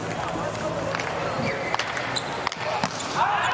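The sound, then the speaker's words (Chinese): A tennis ball bounces on the court before a player serves in a televised match, with a few sharp, faint thuds spaced irregularly over a low, steady background. “是切尔卢卡布罗的发球。”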